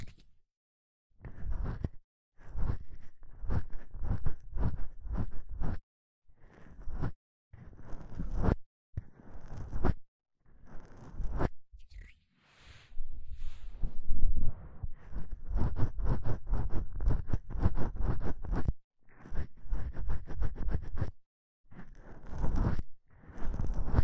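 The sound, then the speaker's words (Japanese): A finger writes on skin, starting with shallow strokes. Soft rustling, scratchy bursts come in a steady series with short pauses between them, and no talk is heard. “最初は浅いとこからかな。指で書くので、痛いときは教えてください。”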